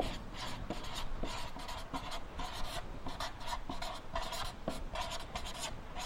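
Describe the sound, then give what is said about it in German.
Pen scratching as someone handwrites the German word 'Sicherheit', with quick strokes and steady scraping that run on without a break. It is faint and there is no talk. “Also, ich schreibe jetzt mal auf zum Beispiel Sicherheit.”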